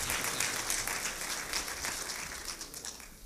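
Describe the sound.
An audience applauds to welcome a guest speaker from Little Rock, Arkansas, at a North Carolina gathering. The clapping is a dense, steady wash that runs the whole length without a break or any talk.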